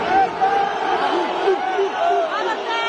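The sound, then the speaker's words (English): Monkey noises from a football crowd at a Serie A match between Brescia and Verona, aimed at a Black player: repeated hooting, wavering vocal calls over a murmuring crowd, at a moderate level. “What you're hearing are monkey noises coming from the crowd, directed at black Italian footballer Mario Balotelli as his side Brescia faced Verona in Serie A.”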